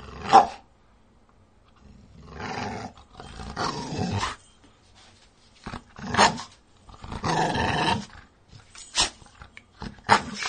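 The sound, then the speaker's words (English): A dog lets out deep, growly barks and rough roaring howls, several loud bursts spaced irregularly with quiet gaps between them. “Come on. One more bark. There you go.”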